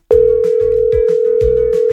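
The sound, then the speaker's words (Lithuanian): A telephone dial tone sounds while a call is being placed: a loud, continuous tone holding one steady pitch for about two seconds, over faint background noise. “Skambinu dabar Gabrieliai.”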